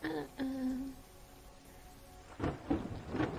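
Thunderstorm during a late-night drive: a steady rain hiss, then heavy rumbling thunder bursts toward the end.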